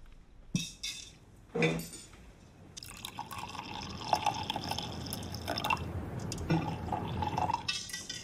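Soda is poured into a glass: a couple of sharp clinks first, then a steady hissing, fizzy stream of liquid that continues to the end.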